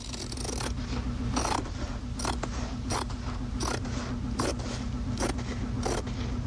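Scissors cutting thick cardboard, giving several rasping, crunchy snips at an uneven pace over a steady low background hum.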